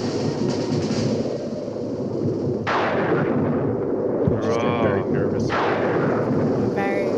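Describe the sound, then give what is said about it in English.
Sustained gunfire from several guns shooting bullets, a dense, continuous barrage that stays loud throughout, with a couple of sharper swells in the middle. “Bullets going right through them.”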